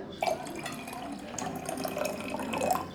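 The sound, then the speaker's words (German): Wine being poured into a glass: a faint, steady trickle of liquid that runs for about three seconds with no one talking. “Das ist wirklich ein guter Wein. Darf ich Ihnen dann einschenken?”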